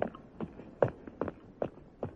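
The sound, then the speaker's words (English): Quick footsteps hurry along cobbles and up steps as a series of faint, crisp taps at a brisk, fairly even pace through the whole stretch. “The quick footsteps hurry on along the cobbles and up 3 steps to the sailor's arms.”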